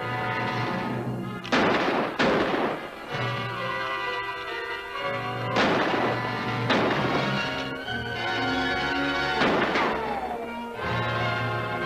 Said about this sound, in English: Get another one. Shoot a hole in it.